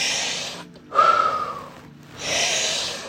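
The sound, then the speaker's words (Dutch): Deep breathing in and out during a guided breathing exercise: three slow, airy breaths, each a soft rushing hiss, one carrying a faint whistling tone. “Voor de laatste 3. In, uit, in, uit, laatste in, blaas uit”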